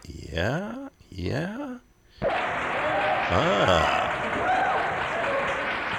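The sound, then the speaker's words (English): Audience applause at a 1972 live jazz concert at Antioch College, Yellow Springs, Ohio, bursting in after a man speaks and continuing as a loud, steady clatter of clapping with a voice briefly heard over it. “crowd's loving it. They're with them, man.”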